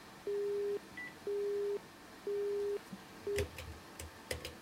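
A telephone busy signal sounds three steady, evenly spaced beeps at the same pitch and a fourth cut short, followed by a few faint clicks of handling.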